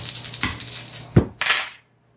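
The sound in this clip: Dice being rolled during a tabletop Shadowrun role-playing game: a few sharp, clattering knocks and rattles on a hard surface that end abruptly in silence.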